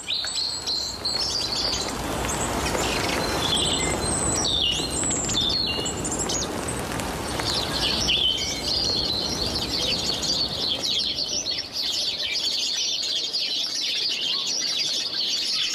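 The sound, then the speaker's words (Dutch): A robin, a song thrush and a great spotted woodpecker call and sing in spring rain in the dunes of Meijendel near The Hague. Varied high chirps and phrases run continuously over a steady hiss of rainfall. “Lis Stolp fietst in de regen door Meijendel bij Den Haag en hoort Roodborst, zanglijster, grote bonte specht en beseft: het mag wel regenen, maar het is lente.”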